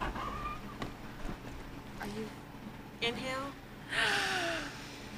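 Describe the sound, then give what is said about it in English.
Deep breaths in and out, taken together during a conversation: quiet gasping inhales and sighing exhales, a few in turn, mixed with soft voices. “I need to take a deep breath. You want to take a deep breath with me?”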